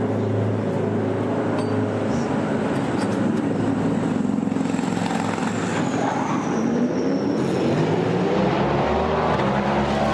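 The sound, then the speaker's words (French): A Cadillac endurance race car pulls out of the pits for a new stint, its loud, steady engine roar mixed with broad noise, and its engine tone climbs in pitch during the second half. “Et le Cadillac de Norman Nato qui repart pour un relais.”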